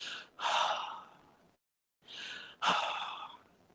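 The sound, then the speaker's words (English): A voice imitates an eerie breath, in and out: two long, airy, hissing breaths separated by a short silence, each swelling quickly and then fading, with no words spoken. “there was this noise that came out all of a sudden, and in that the noise sounded like an inhale and exhale. It was like,”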